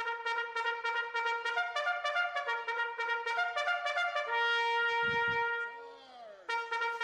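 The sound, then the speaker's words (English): A bugle plays the charge call: a brisk run of short, bright, brassy notes in a punchy rhythm, then a long held note. A short break follows before the playing resumes. It is loud and heard alone. “Did you know that there are people that can play a bugle and really just from the way they adjust the air they're blowing in and the formation of their lips, they can make distinct sounds like this one.”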